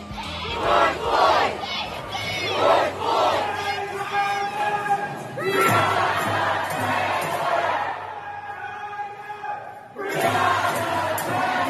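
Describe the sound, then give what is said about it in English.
Street protesters chant names in unison, a loud crowd shouting rhythmic phrases in repeated bursts separated by short pauses. “George Floyd, Breonna Taylor, Ahmaud Arbery. Those were the names that protesters were chanting on the streets”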